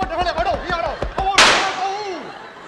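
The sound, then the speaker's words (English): One sharp gunshot sound effect cracks out amid a comedic exchange, a loud burst with a short fading tail that cuts across ongoing talk. “I shot him.”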